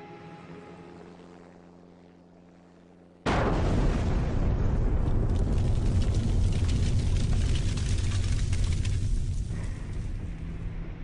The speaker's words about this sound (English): There has just been a huge explosion here. We don't know what it means, but it just shook the whole place.